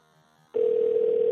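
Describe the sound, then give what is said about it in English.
Telephone ringback tone on an unanswered call: a steady, unbroken mid-pitched tone starts suddenly after a brief quiet stretch and holds at an even, loud level to the end. “You'd think he'd want to parlay about my behavior, though, and he's not picking up.”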